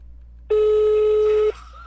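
Single ringback tone of a telephone call going unanswered: one steady, mid-pitched beep lasting about a second over a faint background hum, with no voices.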